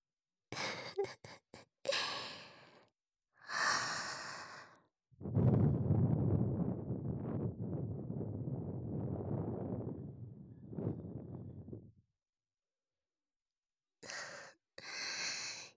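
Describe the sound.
Breath is blown softly into a listener's ear in a few short, airy puffs, then one long sustained exhale, then more brief breaths after a pause. It is quiet and intimate, with no talking.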